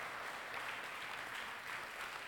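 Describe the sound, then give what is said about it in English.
Applause from a church audience, a steady, faint wash of clapping that lasts the whole clip. “Can we give the Lord Jesus a round of applause?”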